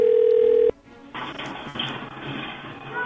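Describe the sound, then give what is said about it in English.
Steady telephone tone on an outgoing call holds for under a second, then cuts off abruptly and gives way to hissy, rustling line noise. “now I'm going to call her back”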